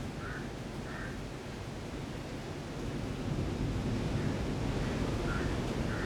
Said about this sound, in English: be aware of the sounds of the nature, the sound of the waves, the sound of the wind brushing through the leaves.